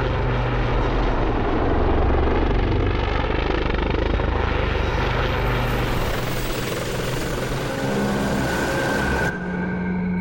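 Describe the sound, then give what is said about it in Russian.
A helicopter flies out from behind mountains, its rotor and engine making a loud, steady roar with a constant chopping drone that fills the whole stretch and shifts slightly in tone near the end. “Из-за гор вылетает вертолет.”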